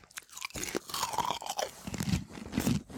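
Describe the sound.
Chewing on gummy candy, with soft crunches and biting sounds repeating unevenly throughout. The chewing is fairly faint, and no one talks over it.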